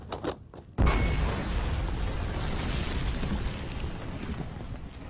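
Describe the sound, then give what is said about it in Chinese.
A hand grenade explosion in wartime combat: a few short thumps lead into a sudden, loud blast, followed by a sustained, heavy roaring rumble that holds steady to the end. “老彭拼尽最后一点力气站了起来，他将手榴弹扔向敌人。敌人的机枪疯狂地扫射老彭”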